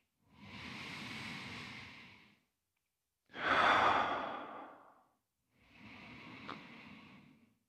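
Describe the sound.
Slow breathing in and out during a guided breathing session: three long, airy breaths with soft whooshing, the middle one the loudest and fullest, with no talking over them.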